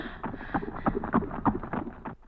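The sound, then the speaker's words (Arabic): Hooves of ridden horses clip-clop in a steady, quick rhythm of muffled thuds, moderately loud and continuous throughout, with no voices. “يا إلهي يا إلهي، إنه الأمير حسان على صهوة حصان، ومن يكون؟”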